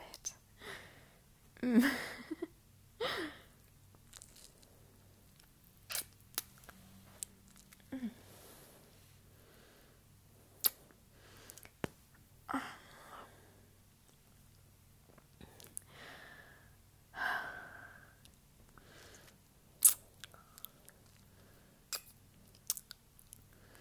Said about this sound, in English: Your neck smells so delicious. I have to bite it.